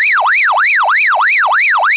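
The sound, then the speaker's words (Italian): A police siren picked up over a CB radio channel, wailing loudly in rapid, continuous sweeps that rise and fall many times in quick succession with no voices over it. “Cazzo, è la polizia.”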